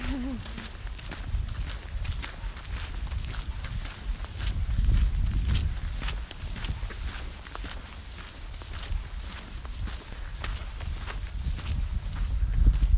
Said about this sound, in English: Just walking towards the wall to go touch it.